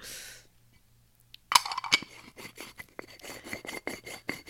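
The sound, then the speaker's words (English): An herb grinder grinds cannabis, producing gritty, rasping scrapes. Many quick, uneven strokes follow a sudden start, staying fairly faint and continuous with no talk over them. “Grinding that weed.”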